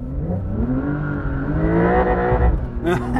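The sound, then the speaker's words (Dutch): Engine of a Porsche 911 Dakar driving: a loud, steady, harmonic drone that climbs gradually in pitch as the car accelerates, then breaks off near the end. “Uiteraard gaan we in een Porsche rijden. Wouter testte de 911 Dakar.”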